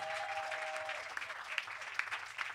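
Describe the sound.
Clapping and cheering from a church audience in Côte d'Ivoire acclaiming the Lord. A voice is heard at the start, then faint, dense clapping carries on with a few sharper shouts rising out of it.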